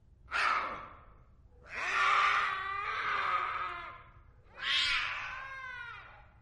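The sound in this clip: An angry cat with bared teeth lets out three harsh, screeching yowls, loud and drawn out, with short gaps between them; the middle cry is the longest.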